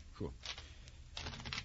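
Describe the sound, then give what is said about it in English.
Playing cards being shuffled for a card game, heard as two brisk, papery riffling bursts separated by a short pause, each lasting under half a second and moderately loud. “And now the cards. The best antidote for a weary mind. You shuffle, huh?”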